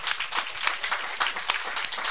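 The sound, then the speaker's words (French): Audience applause at a radio fundraising marathon, a lively patter of many distinct hand claps at a fairly loud, steady level, irregular in rhythm with no voices over it. “Et ça, je pense, ça mérite une bonne main d'applaudissements,”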